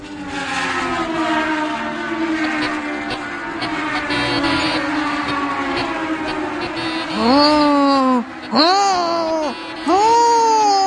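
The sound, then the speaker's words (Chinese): A voice imitates a racing car engine, pretending to drive a Formula 1 car. A long, steady droning hum gives way to three loud revving bursts that swoop up and down in pitch, split by short breaks. “你干嘛发出那个吼吼吼的引擎声啊？”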